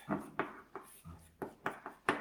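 Handwriting during a math proof explanation comes through as a quick series of faint, short, scratchy strokes, evenly spaced and dry, with no talk over them.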